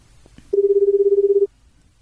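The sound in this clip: Ringback tone of an outgoing telephone call: a single burst of rapidly pulsing, mid-pitched ringing lasting about a second, with near silence before and after.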